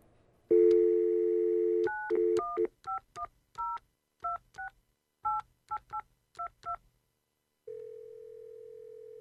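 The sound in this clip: A telephone is dialed to call the dentist. A steady dial tone comes first, then a quick series of many short touch-tone beeps. After a pause, a long, steady single tone follows.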